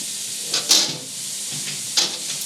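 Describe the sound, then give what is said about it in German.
Food fries in a pan with oil during a cooking session. A steady soft sizzling hiss runs throughout, broken by two brief clattering bursts. “bist du schon am Braten? Ja, es wird ja ordentlich gebratet”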